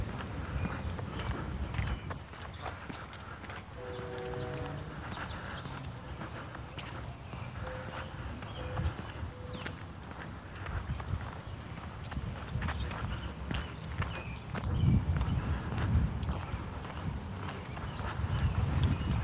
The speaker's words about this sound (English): I got a couple coming up behind me who are walking faster than I am.